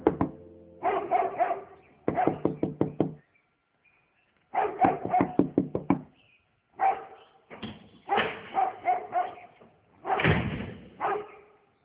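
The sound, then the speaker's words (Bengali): Someone knocks on a door in several separate bursts of quick, sharp raps, with short pauses between the bursts, and no talking. “এমন সময় দরজা knock করলো কে যেন।”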